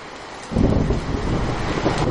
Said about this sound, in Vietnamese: Mưa gió bên tai, tiếng mưa dần dần đổ dồn tới mái hiên cửa sổ, tràn ngập khắp trong tai.